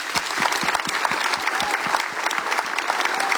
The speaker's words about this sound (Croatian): tako da je još jedan veliki pljesak za njegov doprinos, evo stvarno.